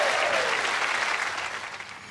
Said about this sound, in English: So give him a big round of applause.